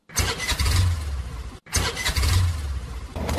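A vehicle engine starts and runs as it pulls away. The rough, mid-pitched rumble comes in two bursts split by a brief silent break.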